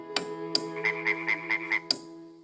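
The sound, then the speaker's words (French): A frog-shaped alarm clock croaks over a steady tonal hum: sharp clicks frame a run of five evenly spaced, nasal croaks in the middle. “elle met le réveil grenouille”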